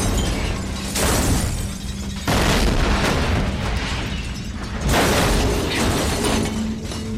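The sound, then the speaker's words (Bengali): A loud, ear-splitting explosion effect in a Bengali thriller audio story: heavy booming blasts with surging bursts and crackling debris that swell again a few times over several seconds. “তারপর মুহূর্তে একটা প্রচণ্ড জোরে কান ফাটানো শব্দ হল”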